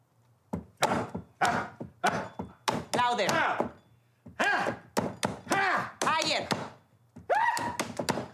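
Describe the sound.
Chicken being pounded during cooking: many heavy, hollow thuds and knocks in uneven bursts, with voices talking between and over the blows.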